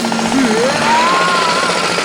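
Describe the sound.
Power drilling from a renovation crew working next door before dawn, a loud, continuous grinding roar with a whining tone that climbs in pitch and then levels off.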